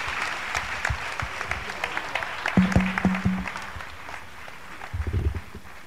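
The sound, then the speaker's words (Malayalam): Applause at a Christian gathering welcomes a speaker to the stage, a fairly soft, continuous patter of many hands lasting several seconds. “എല്ലാവരും കൈയടിച്ച പ്രിയപ്പെട്ടവനെ നമുക്ക് വേദിയിലേക്ക് സ്വീകരിക്കാം.”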